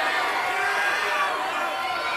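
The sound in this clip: A crowd at a poker tournament cheers and shouts, forming a dense, steady roar of many voices that holds at an even level for the whole clip.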